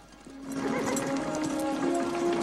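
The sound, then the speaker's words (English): A white horse rearing up on a rock promontory gives a long, fairly steady neigh over a dense rustling background, with hoof clatter mixed in and no voices. “A white horse appears on a rock promontory up ahead and rears up.”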